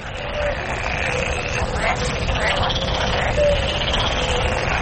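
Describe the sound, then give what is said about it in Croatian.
Trucks unloading construction waste in a forest near Belgrade give a steady, loud low engine rumble that drones on without a break. “Njihov mir dve godine unazad remete kamioni koji u šumi u blizini Bare istovaraju građevinski otpad.”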